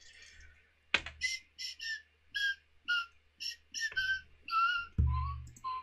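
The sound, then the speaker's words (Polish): A person whistles a melody from childhood, a string of many clear, high tonal notes in an uneven tune, some gliding slightly, with a couple of dull thumps among them. “Gwiżdżę sobie melodię z dzieciństwa, z Seattle.”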